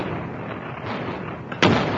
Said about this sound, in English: And that was when the factory blew up.